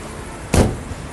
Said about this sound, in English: My boot's rattling. Okay. I don't think I've closed it. Do you want me to just lock it?